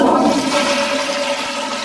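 A toilet flushes with a steady, loud rush of water that holds nearly even throughout the short clip, with no voices over it.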